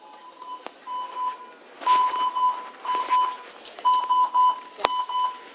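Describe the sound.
A medical ventilator alarm beeps repeatedly. Mid-pitched tones sound in short bursts with an uneven rhythm, mixed with soft clicks and faint background noise.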